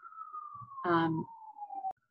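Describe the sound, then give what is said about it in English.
An emergency vehicle's siren sounds outside as a single sustained wailing tone that glides slowly downward in pitch, fairly faint, before cutting off abruptly. “Sorry for the siren. I'm going to leave it in there”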